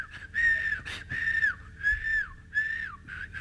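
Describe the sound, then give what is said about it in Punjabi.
Lip whistling by a boy who has just learned how, a clear mid-high tone in a few short repeated phrases, several ending with a small downward slide. “ਕਹਿੰਦਾ ਕਹਿੰਦਾ ਆ ਗਈ, ਬੜਾ ਖੁਸ਼, ਲਓ ਜੀ ਘਰ ਸੀਟੀਆਂ ਮਾਰਦਾ ਜਾਵੇ।”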